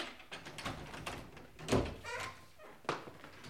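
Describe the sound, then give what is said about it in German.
A door being forced open: a few heavy, dull thumps and bangs against the wood, struck at an uneven pace with a scrape and rattle between the blows. “Wäre doch gelacht, Meister. Wenn wir diese Tür nicht eindrücken könnten. Hau, ruck!”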